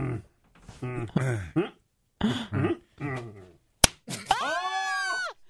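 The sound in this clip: A single sharp slap of a tortilla against a man's face during a tortilla slap challenge. It cracks out once between stretches of lively talk and is followed by a loud vocal reaction.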